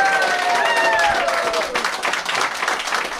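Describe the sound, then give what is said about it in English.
Audience applause at a community gathering in County Tipperary: dense, loud clapping from a crowd continues throughout, with voices over it. “Come on, let's hear it for it again.”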